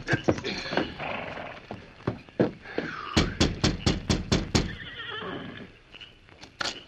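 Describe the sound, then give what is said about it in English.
Horse hooves clip-clop as a rider reins up in front of a ramshackle cabin: a quick run of sharp, evenly spaced hoofbeats mid-clip among scattered knocks, with a horse whinnying. “Clint Starbuck rode eastward out of town. Several hours later, he reined up in front of a ramshackle cabin.”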